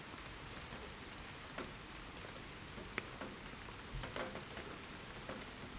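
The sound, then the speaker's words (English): Wrens chirping near a small bird feeder house, one under a tree: a few brief, thin, high chirps repeated at intervals, faint over a steady, patter-like background hiss. “That's two wee wrens. Can you hear that wee chirp? That's one wren under the tree. And there's another one on top of the wee bird feeder house,”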